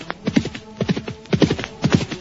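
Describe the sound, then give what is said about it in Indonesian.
Horse hooves clip-clopping as riders travel toward a palace: four evenly spaced clusters of sharp, hollow hoof strikes repeat in a steady rolling rhythm, fairly loud. “Sekarang Samara dan Rakeh Jangkung berkuda menuju istana Kapopongan.”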